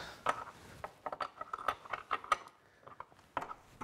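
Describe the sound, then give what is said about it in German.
Ratcheting clicks from a screw being tightened, many sharp, irregular mechanical clicks in quick bursts with short pauses, heard alone. “Schöne Schraube hier anziehen, meine Güte.”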